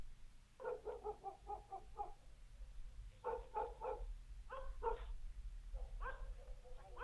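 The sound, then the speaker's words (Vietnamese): Dogs bark at the end of a village: many sharp, fairly quiet barks arrive in several separate bursts with short pauses between, without speech. “nghe tiếng chó sủa ở cuối làng. Tiếng chó cắn ông ổng vang lên.”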